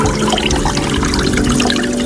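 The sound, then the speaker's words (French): Water falling from a spa rain arch, a dense, loud, even pattering and trickling that holds steady throughout, with no voices. “on vient d'allumer l'arceau de pluie. Donc en fait c'est un arceau avec de l'eau qui coule assez délicatement.”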